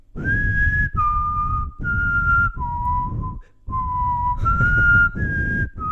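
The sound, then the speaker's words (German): A person whistles the Big Ben chime melody in two phrases of four sustained, clear notes, separated by a short pause, with no talking. “Ja, warte, ich versuche zu pfeifen, aber ich müsste eigentlich niesen, aber ich versuche zu pfeifen.”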